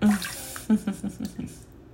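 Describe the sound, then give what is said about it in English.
Water sloshes and gurgles in a bathtub as some is let out, a quick run of short, uneven splashes and swirls, with a louder burst near the start and again partway through. “I might let some water out of this tub”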